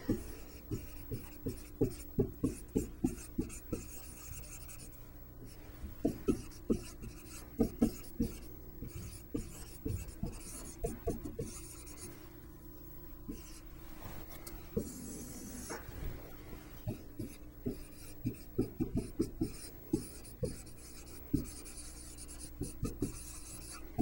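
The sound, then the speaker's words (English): Writing strokes as an augmented matrix is written out during a Gauss-Jordan row reduction lesson: many short scratchy strokes in irregular bursts, with brief pauses between groups, faint and without talk. “So for our example, writing in an augmented matrix,”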